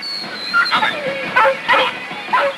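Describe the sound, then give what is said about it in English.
A dog on a leash in the street, straining and pulling, gives several short, high whimpers and yips in quick succession. “Sergeant Davy walks Lassie down the street. She jerks at her leash and pulls Davy backwards.”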